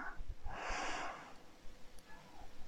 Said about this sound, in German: Atme tief ein